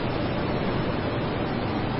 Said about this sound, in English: As I sit here just watching the waves of the ocean, I imagine that the world is washed away from my mind.